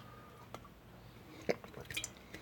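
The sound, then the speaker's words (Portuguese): Faint sipping and swallowing of the last of a drink: a few brief, soft liquid clicks and a small gulp, spread sparsely with no talk. “Lá beber o último gole. Acho que caiu no meu nariz agora.”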